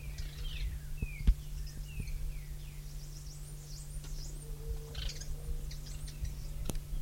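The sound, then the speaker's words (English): Three small birds twitter, scattering many brief, high, faint chirps over a steady low hum. “three birds present. Little twittering notes.”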